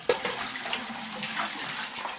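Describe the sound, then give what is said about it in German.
Water is poured and splashes as milking utensils and tea cups are rinsed with water heated in a large pot over a fire. A sharp splash opens a continuous rushing, gurgling flow of moderate loudness with no voices. “Auf dem Feuer wird ein großer Topf Wasser erhitzt, um zuerst sorgfältig die Melkutensilien und danach die Teetassen zu spülen.”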